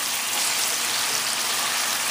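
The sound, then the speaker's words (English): Chicken sizzling as it browns in a pan, a loud, steady crackling hiss that runs without pause. “Now we're just gonna turn this around until you see that the chicken is a little bit browned,”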